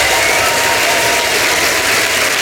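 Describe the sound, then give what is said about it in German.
A crowd at a live poetry stage event gives thunderous applause as performers leave the stage. The clapping is loud, dense and unbroken, holding steady from start to finish. “verabschiedet trotzdem nochmal die Person, die wir nicht mehr sehen, mit einem tosenden Applaus von der Bühne.”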